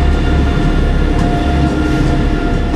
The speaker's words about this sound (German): Und jetzt fährt der Zug weg, der Leerfahrt von vorhin. Lass mal kurz vorbeidingeln.